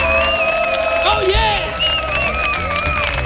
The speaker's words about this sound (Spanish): para nuestro público, que suena así de fuerte su aplauso.